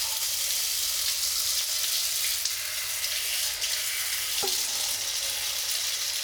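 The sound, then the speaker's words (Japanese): Running water rinses foam out of hair in a steady, even hiss, broken only by a single brief click partway through. “丁寧に洗い流して。”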